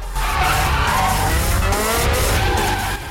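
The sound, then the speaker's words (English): Tires squeal in a sustained skid as a car drifts on a mountain road with the handbrake on. The loud skid holds steady with an engine roar beneath it for about three seconds, then cuts off abruptly. “They move to the mountain road, gear change, handbrake on,”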